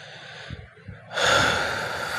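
A long, deep breath taken as a calming exercise: a soft, slightly uneven inhale, then a loud, rushing exhale that starts about halfway and carries on to the end.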